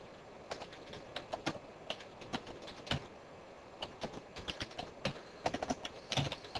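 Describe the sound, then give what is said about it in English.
Computer keyboard typing as a teacher enters student comments into a discussion box, a quick irregular run of many light clicks and taps with no talk. “So you can see, as I'm typing the comments from the students, it's going directly into this discussion box.”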